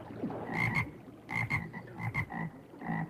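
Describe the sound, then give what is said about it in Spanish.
Frogs croak in a few short bursts, each made of quick rasping pulses, some in close pairs, with brief pauses between them and no voices. “Tal vez has visto pocas ranas en tu vida, pero has escuchado muchas más de lo que te imaginas.”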